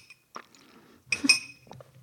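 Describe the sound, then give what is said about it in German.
A glass of orange juice is handled for a sip. One light clink is followed by a short cluster of bright glassy knocks and ringing, then faint quiet handling. “Kurz noch einen Schluck O-Saft.”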